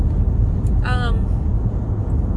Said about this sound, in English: And all the noise that you guys are hearing, all the background noise from driving.